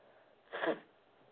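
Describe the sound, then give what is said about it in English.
A single quick nose blow: one short, faint puff of breathy air that rises and fades within a fraction of a second. “I am actually going to blow my nose.”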